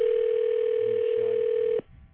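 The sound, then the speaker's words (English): A telephone ringing tone sounds on the line as a call is placed: one steady, unbroken tone that holds for almost two seconds and then cuts off, leaving faint low line noise. “All right, let's phone Andy, see if we can scare him a little bit.”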